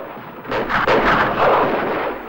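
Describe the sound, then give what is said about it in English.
Loud gunfire in a western film shootout, with dense overlapping shots merging into a continuous booming roar with heavy low rumble throughout. “Calvera makes a dash towards Chris, but is forced to throw himself to the ground when he comes under fire from Chico and O'Reilly.”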